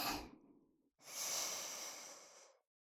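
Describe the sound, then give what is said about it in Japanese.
Deep breathing during a relaxation exercise: the airy tail of one breath fades out, then after a brief pause a long, steady, breathy draw of air follows, soft and smooth, with no voices. “深呼吸。吸って、”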